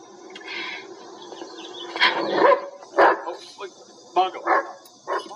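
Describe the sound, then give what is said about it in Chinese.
A dog barks at a woman in a dramatized scene: a few short, sharp barks come in bursts through the second half, mixed in with people talking. “Mike 的狗狗叫 Bungo，然后就对 Susan bark。”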